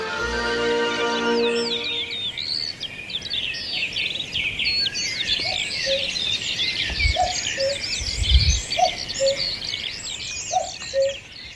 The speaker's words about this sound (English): Just listen to that cuckoo there, that wonderful sound in amongst the myriad of birds singing there.